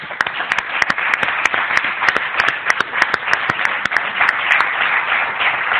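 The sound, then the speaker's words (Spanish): An audience applauds at an awards gala with dense, sustained clapping. Many sharp individual claps stand out, and the sound stays steady and loud throughout. “A ellos el aplauso”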